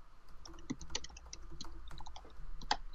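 Keystrokes on a computer keyboard: quiet, irregular clicks and taps in uneven bursts, with no voices.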